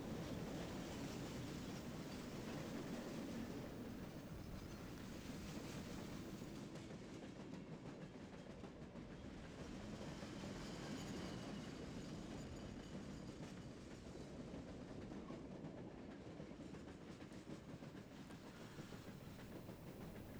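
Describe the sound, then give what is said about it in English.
Old recording of a train in motion: a steady, loud rumble of wheels and carriages with rhythmic clatter on the rails, continuing unbroken for the whole stretch with no voices. “Listening to some old sounds of trains.”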